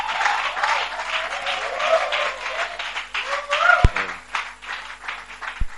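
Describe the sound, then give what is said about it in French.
A church audience applauds and cheers for the Lord. Loud, sustained clapping rises and dips in waves, with a few raised voices cheering over it, a couple of sharp thumps, and a gradual easing toward the end. “Waouh, est-ce qu'on peut acclamer pour le Seigneur? Est-ce qu'on peut acclamer?”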